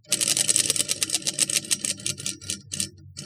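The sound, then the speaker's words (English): A prize wheel spins with a fast clatter of ratcheting clicks that gradually slows, the ticks spreading farther apart until only a few separate clicks remain near the end. “you want to spin the wheel”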